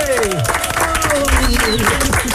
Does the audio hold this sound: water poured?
no